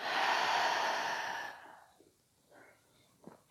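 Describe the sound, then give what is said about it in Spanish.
A slow, breathy exhale through the mouth during a guided deep-breathing exercise, a long steady whoosh of air that fades out after about a second and a half, followed by faint small breath noises. “Y suavemente suelta todo, todo el aire por tu boca.”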